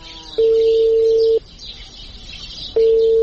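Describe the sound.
Telephone ringing tone on an outgoing call that goes unanswered: a steady mid-pitched electronic tone sounds twice, each burst about a second long with a pause between, the second cut off at the end, over faint background hiss.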